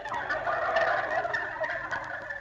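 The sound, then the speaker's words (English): A turkey gobbles in one loud, continuous burst of rapid, rattling calls lasting a couple of seconds, with no talk over it. “Rochester. What are you doing in here, turkey? I thought I put you out on the back porch.”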